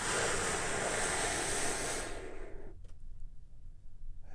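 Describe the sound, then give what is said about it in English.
A deep, airy breath taken during a relaxation breathing exercise, a loud breathy rush that fades after about two and a half seconds into near quiet. “we do that by taking a big, deep, healing breath with me right now. Here we go.”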